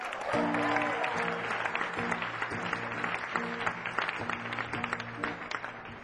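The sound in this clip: Audience applause welcomes a band onto the stage at a concert: dense, sustained clapping fills the whole stretch, with a repeating musical chord pattern playing underneath.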